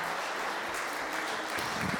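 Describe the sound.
A round of applause for a Bible reader: a dense, even patter of many hands clapping that holds steady throughout.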